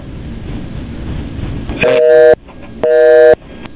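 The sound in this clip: A telephone busy signal on a call-in line sounds as two steady, evenly spaced beeps, each about half a second long, after a stretch of low, noisy background.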